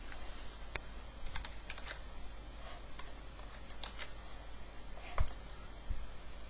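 Computer keyboard keys pressed for a Ctrl-C copy shortcut: a few sharp, sparse clicks over a steady low hum.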